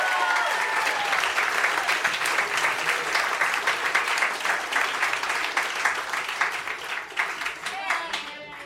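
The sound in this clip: An audience bursts into sustained applause for a writer taking the stage to read from his book. The clapping stays dense and even before thinning slightly toward the end, with a voice calling out over it.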